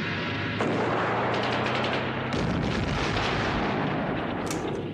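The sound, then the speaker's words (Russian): Loud, dense gunfire from a battle with tanks, including rifle shots, forms a continuous rumbling roar of blasts and reports. Sharp fresh bursts push the level up twice, with crackling impacts layered through the whole stretch. “Борзых перезаряжает ружье. «Сдох, Макар! Сходу!» Переводит дуло левее. Загорается еще один танк.”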